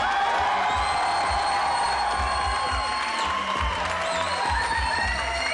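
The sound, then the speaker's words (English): A crowd at a live comedy show in Madison, Wisconsin applauds and cheers as the host is welcomed to the stage, a continuous roar of clapping and shouting, moderately loud. “Won't you please welcome to the stage Wisconsin's own mayor, Dan Harmon.”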